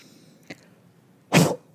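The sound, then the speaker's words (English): A forceful breath drawn in through the nose and blown out, heard as one loud, short rushing burst of air, preceded by a faint, brief sound. “I'm going to inhale and blow it out.”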